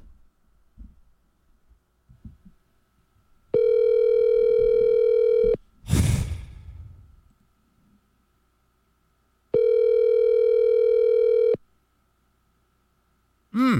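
Ringback of an outgoing telephone call that rings unanswered before going to voicemail: two long, steady buzzing rings of about two seconds each, separated by a pause that holds a brief noisy burst.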